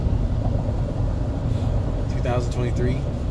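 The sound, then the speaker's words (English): Steady low engine and road rumble comes from a car driven around in the middle of the night to recharge its dead battery. It drones continuously beneath a voice talking. “my battery's fried. So I had to drive around to charge it up. It's the middle of the night.”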